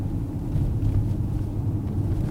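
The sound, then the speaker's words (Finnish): Steady low engine and road rumble from a car driving from Mariehamn toward a rocky natural boat harbour at Eckerö in western Åland; the drone stays even and continuous throughout, with no voices. “Lähdemme Monikan kanssa Maarianhaminasta autolla kohti Ahvenanmaan länsiosaa, Ekkeröä, josta meidän on tarkoitus jatkaa matkaa veneellä Emsjärille.”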